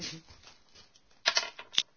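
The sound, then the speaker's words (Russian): A die is thrown: after a soft low rustle, a few sharp, bright clicks come in quick succession, and one last crisp tap follows a moment later. “Кубик кинь, кстати.”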